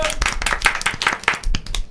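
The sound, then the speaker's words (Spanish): Quick, crisp hand clapping welcomes a guest onto a show, many fast claps in a lively, uneven rhythm, with a voice faintly mixed in. “Bienvenidos, buenas noches y lo vamos a palmetear, señor. ¡Bravo! ¡Bravo!”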